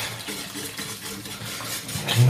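Königsberger Klopse sauce being stirred in a pot, giving soft, continuous scraping and clinking of a utensil against the pot, fairly steady and slightly louder at the end.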